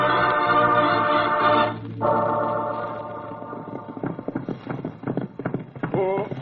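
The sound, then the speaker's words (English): Horses' hooves clip-clop as riders set off, a steady run of many crisp rhythmic hoofbeats. A sustained tonal sound comes first, then the hoofbeats carry on alone. “Come, Logo, we ride.”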